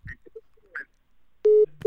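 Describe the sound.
Telephone tones as a call is being dialed: two short, steady electronic beeps in quick succession, following a few faint, brief murmurs of voice.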